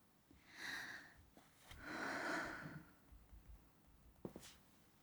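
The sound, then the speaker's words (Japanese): A deep breath before singing a children's song: a soft inhale, then a longer and fuller breathy exhale, both fairly quiet, followed by a few small clicks. “まずはちょっとですね、深呼吸して、”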